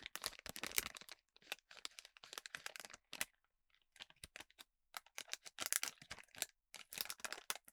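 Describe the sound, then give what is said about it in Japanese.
A pistachio shell is cracked and pried open by hand. Many small, crisp clicks and snaps come in quiet, irregular clusters separated by brief pauses. “ピスタチオ一個いけます、開封の儀、開いた”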